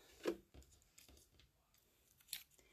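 Scissors cut, giving faint, crisp snips. One stands out near the start and another near the end, with softer rustling between.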